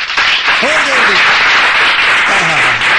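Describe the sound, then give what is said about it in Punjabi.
Loud audience applause opening a program, a dense and steady wash of clapping throughout, with a few voices calling out above it. “ਇਸ ਕਰਕੇ ਇੱਕ ਵਾਰੀ ਜ਼ੋਰਦਾਰ ਤਾੜੀਆਂ programme ਦੀ ਸ਼ੁਰੂਆਤ ਕਰਨ ਵਾਸਤੇ।”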